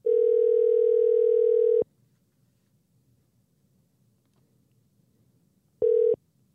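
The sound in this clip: A telephone dial tone sounds while a call is being placed: a loud, steady single-pitched tone holds for about two seconds, gives way to near silence, then returns as a short burst.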